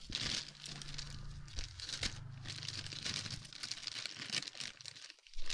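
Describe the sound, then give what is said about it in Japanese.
A plastic bag crinkles and rustles steadily as a toy package is opened, with its contents tangled inside. The crisp, irregular crackling runs continuously without talk. “開封したいんだけど、この袋の中でまず絡まっとる。”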